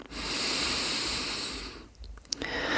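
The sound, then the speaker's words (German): Slow, deliberate breathing during a guided breathing exercise, a soft airy hiss that swells and lingers, fairly faint, followed by a few small sniffing sounds. “Und einatmen, ausatmen. Einatmen.”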